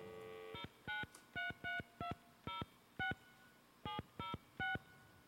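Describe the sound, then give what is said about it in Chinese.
Telephone keypad tones as a number is dialed during a live performance: ten short, even beeps in a quick, uneven rhythm, with a pause before the last three, faint and with no talk. “那接下来我想要打电话给这个好朋友”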